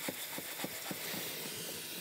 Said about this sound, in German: Magst du mal einmal das Waschbecken ziemlich füllen?